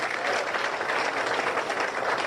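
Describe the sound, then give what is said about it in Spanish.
Sustained applause at an official ceremony in Guairá department: a steady, even wash of many hands clapping at moderate loudness, holding without a break for the whole clip. “Fuertes los aplausos para doña Andresa.”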